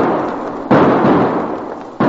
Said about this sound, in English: The shots came right from those aspens.